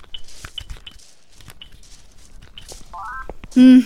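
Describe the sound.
A smartphone tapped to open a flashlight app: several light clicks and taps, then a short run of electronic tones and a loud buzzy beep at the end.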